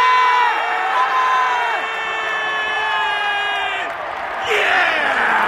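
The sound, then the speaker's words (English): A crowd roars and whoops in celebration of a New South Wales rugby league victory, loud sustained cheering with high shouted voices on top, dipping briefly near the end before swelling again. “And what you're listening to here is the sound of a new South Wales victory!”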